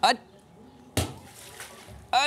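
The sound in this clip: A splash as someone jumps into water after a thrown ball: one sudden broad burst with a trailing wash, with brief voices just before and after it.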